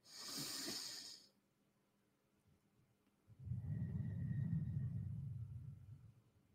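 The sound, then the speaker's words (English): A deep breath taken during a guided meditation: a soft, hissy inhale, then a brief pause and a longer, low, rushing exhale, heard alone without talk. “Come with me now, my friend. Back into your body fully, taking a deep breath with me.”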